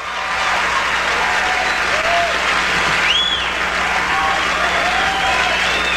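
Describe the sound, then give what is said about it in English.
A TV studio audience on a late-night talk show cheers and applauds wildly as Tom Brokaw walks out. The dense, loud roar of clapping is steady, with a few shrill whistles rising above it. “He makes the joke I just played there about Joey Buttafuoco, and all of a sudden the audience starts going crazy, and Tom Brokaw walks out, and then this happened.”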